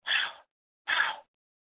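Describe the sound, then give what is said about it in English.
Two forceful breath exhalations in a breathing exercise, each a short airy rush of noise about half a second long, separated by a brief silence and heard alone. “Now take a full deep breath in and exhale with a double exhale forcefully.”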